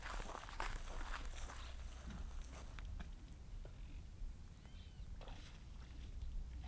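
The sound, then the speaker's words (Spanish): Water moving outdoors, heard as soft, irregular splashing and pattering over a steady low background. It stays quiet throughout. “Es otro sonido lindo. El del agua ese está bueno.”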